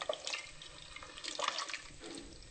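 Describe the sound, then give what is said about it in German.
Vegetable broth is poured into a pot of cabbage and stirred, making faint, irregular liquid splashes and sloshing with no voices. “Jetzt tun wir die Gemüsebrühe rein. Und umrühren.”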